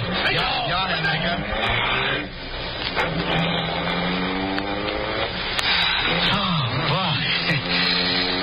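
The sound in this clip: A car engine drives off in a radio drama scene, its steady motor drone running throughout beneath urgent shouted voices of the characters.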